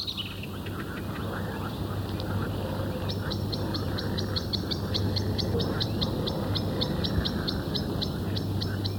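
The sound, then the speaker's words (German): A blackbird sings in spring in a choppy, broken way: a rapid series of short, high, clipped chirps that begins about a third of the way in, runs steadily to the end, and sits over a constant low hum. “Zuweilen hört man im Frühjahr eine Amsel auch etwas abgehackt singen.”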